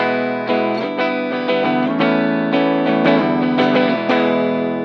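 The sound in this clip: A Heritage H-535 electric guitar on its bridge pickup plays distorted chords through an effects pedal. Many bright, gritty strums repeat in a steady rhythm, and the last chord rings out.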